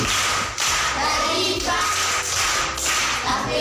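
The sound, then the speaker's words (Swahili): An audience at a Tanzanian primary school event claps for a pupil's correct answer, a dense, steady clatter of hands with a low hum running underneath. “Kapata kakosa? Amepata. Makofi kwa shangazi.”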